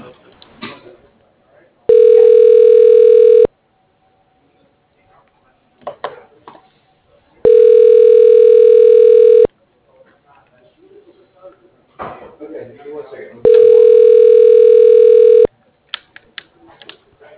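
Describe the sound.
A telephone line rings while a call is transferred: three long, steady ringback tones of about two seconds each, spaced evenly and separated by quieter gaps with faint clicks and knocks.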